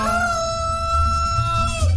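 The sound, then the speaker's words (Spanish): A rooster crows once in a single long, sustained, strongly harmonic call that holds steady and then drops in pitch at the end, loud and alone. “El único gallo que me canta ya, niño.”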